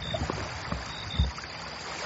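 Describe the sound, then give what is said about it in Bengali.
Water laps and sloshes softly around a rowboat as two fishermen climb out of it, a low steady wash broken by a few dull splashy bumps, with no voices. “Boat থেকে নেমে গেল দুই fisher.”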